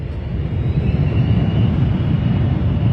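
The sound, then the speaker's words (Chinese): An airplane rumbles as it lands at Munich airport. The low, dense roar stays loud and even throughout, with no voices over it. “哎呀，这个飞机的隆隆声，我们降落在了”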